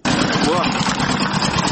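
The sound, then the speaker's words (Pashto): An old 14-horsepower electric generator running, giving a loud, steady, rough engine drone that holds unbroken for the whole moment. “زموږ همکار الی استایی دغه ولسوالۍ ته ورغلی دی، له هغه ځایه ریپورټ راکوي چې د یو جرناتور په غږ پیلېږي.”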